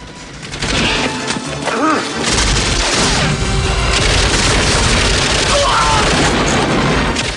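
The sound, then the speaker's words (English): Explosions rock a compound amid fire in a Rambo action film, heard as a loud, continuous wall of booming blasts and crashing debris, with the rumble surging briefly near the start and holding heavy to the end. “Rambo leaps across fire and joins Musa by the truck as explosions rock the compound.”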